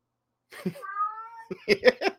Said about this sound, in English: My cat's meowing maybe at birds out there. You can hear him in the background.